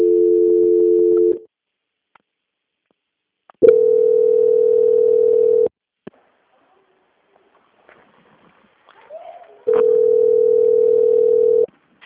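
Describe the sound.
Telephone line tone sounding while a call is transferred to a quality-control department: three long, steady, evenly pitched tone bursts, each about two seconds, separated by silent gaps with a few faint clicks and rustles.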